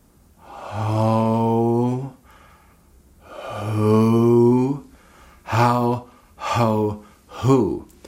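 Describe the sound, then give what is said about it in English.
Vocal exercise in which a breath leads into the vocal folds closing on a tone: two long, steady voiced tones, then three short voiced bursts, the last bending in pitch, each separated by quiet breathy gaps. “We're going to breathe and then bring the vocal folds together.”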